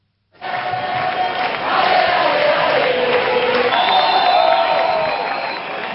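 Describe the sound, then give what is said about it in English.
A large crowd of protesters in Spain demonstrates over the housing crisis. A loud, sustained roar of many shouting voices swells in and eases slightly at the end. “So that's the sound of days of protests across Spain over the country's housing crisis.”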